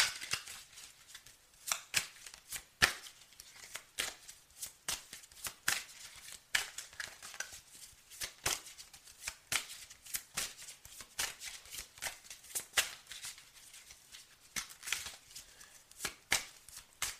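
Playing cards are shuffled and dealt during a card reading, with many crisp, papery riffles and flicks in uneven bursts. The sound stays soft and steady throughout, with no talking.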